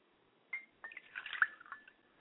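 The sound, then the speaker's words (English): Water poured onto the ground during a religious sanctification ritual, heard as faint trickling and soft splashing with a few drip-like plops. “And as we pour water to the ground, we sanctify this area,”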